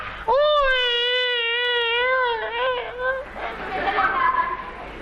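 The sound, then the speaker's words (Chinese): A voice imitates Peking opera style crying: a long, loud wailing tone with a wavering vibrato, held for a few seconds before breaking off into murmuring background chatter. “这就是哭了。”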